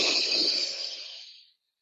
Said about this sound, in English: First deep breath.